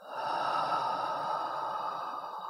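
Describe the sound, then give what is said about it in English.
A slow, deep breath taken in through the nose and let out through the mouth: one long, steady, airy rush of air that holds its strength for a couple of seconds and eases off slightly at the end. “Let's take a deep breath in through the nose, out from your mouth.”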